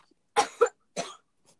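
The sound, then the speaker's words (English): Three raspy coughs from a young girl, a little sister, in the back: two short bursts close together, then a third after a brief pause, with no talking. “It's our little sister coughing in the back.”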